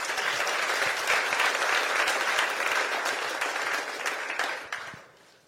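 A church audience claps steadily for a youth group member coming on stage, a dense, even applause that thins out and dies away near the end.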